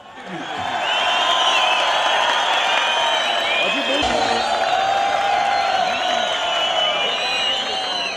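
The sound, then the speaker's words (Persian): Audience applause at a concert as a singer is invited on stage before the last song: loud, steady clapping mixed with crowd cheering and whoops, sustained for the whole stretch. “اما آقای زرگر رو میخوام دعوت کنم با تشویق شما عزیزان.”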